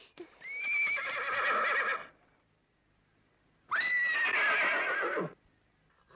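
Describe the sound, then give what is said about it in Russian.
A horse standing in a cramped, dim garage neighs twice, each loud, shrill whinny lasting one and a half to two seconds, with a quiet pause between the two calls. “Внутри него в тесной полутьме стоит лошадь.”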